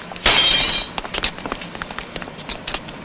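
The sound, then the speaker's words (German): Glass shattering as a window pane is broken by a football in a street: one loud crash, followed by many small scattered clinks and tinkles of falling pieces. “So, und schon eine Scheibe kaputt. Das habe ich ja kommen sehen. Fußball spielen mitten auf der Straße.”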